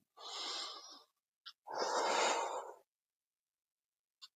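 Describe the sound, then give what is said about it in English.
Deep breathing: two long, loud, airy breaths, the second longer, separated by a short pause with a small click, then silence. “Deep breath.”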